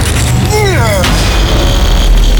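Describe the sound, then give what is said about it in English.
A machine explodes with a sudden loud burst, followed by a heavy, sustained low rumble. “Everyone else, clear the room. The machine is about to detonate.”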